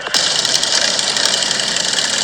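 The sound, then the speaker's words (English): Motorcycle engines rumble at the New Hampshire 7 charity ride in Mobile, a loud, steady, unbroken drone with a rough mechanical texture and no talk. “we are here on a beautiful day doing the New Hampshire 7 ride. Gorgeous bikes, awesome people, a wonderful cause.”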